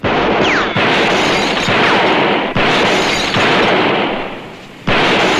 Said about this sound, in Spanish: Clyde dispara a 3 botellas y a 2 latas.